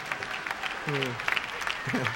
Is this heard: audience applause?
yes